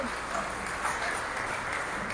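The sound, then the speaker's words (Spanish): Applause from a crowd, a continuous even wash of clapping at moderate level with little change in loudness, faint voices mixed in. “Ah, un aplauso. Ahora sí el aplauso, hombre.”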